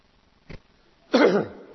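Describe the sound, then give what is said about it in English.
A man coughs to clear his throat during a church sermon: a brief, sharp catch followed by a longer, rougher cough that fades out, with no speech over it. “Excuse me, I'll have one more cough just to clear my throat.”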